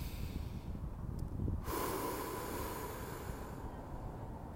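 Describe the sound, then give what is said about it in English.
A deep breath drawn in: a faint, airy inhalation that swells near the middle and then eases into a long, steady, quiet hiss, with no talking. “I took a deep breath in. Just like this.”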